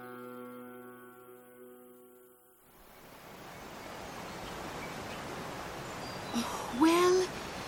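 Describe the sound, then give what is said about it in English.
The Baleghluchay River, spanned by the Haft Cheshme Bridge, flows with a steady broad rushing of water that rises in after a sustained tone fades away. “Listen, it's the sound of Baleghluchay River.”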